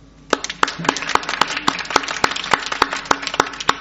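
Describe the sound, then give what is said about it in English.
Hand clapping for a discussion panel: crisp, sharp claps at a steady, fairly even rhythm, with softer claps filling in underneath. “Thanks to our panel. I'm going to give them a clap.”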